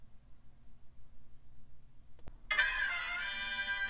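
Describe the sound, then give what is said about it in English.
A phone notification: after near silence, a faint click, then a bright, steady electronic tone that holds to the end. “That was not from Soundboard, that was from my phone. I'll try and get better at that.”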